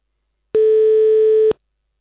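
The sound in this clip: Ringback tone of an outgoing telephone call: a single steady, pure mid-pitched tone about one second long, loud and alone, with silence before and after.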